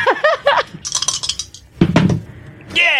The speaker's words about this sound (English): I just jammed my elbow into the side in excitement because I rolled 11 on the die plus 2.